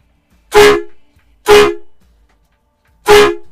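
A loud novelty boss horn toots three times, each blast a strong, even, sustained honk. The blasts are spaced about a second apart, with silence between them.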